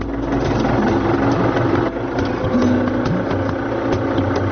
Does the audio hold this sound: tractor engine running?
yes